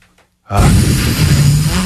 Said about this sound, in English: Please calm down for 5 seconds. Take a breath. Take a breath. Please. Big breath. Breathe in.